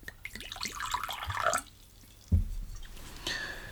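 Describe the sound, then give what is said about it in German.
Whisky poured into a glass: soft liquid drips and trickles, with a brief thud partway through and a faint hiss near the end. “Und mir einen Whisky einschenken?”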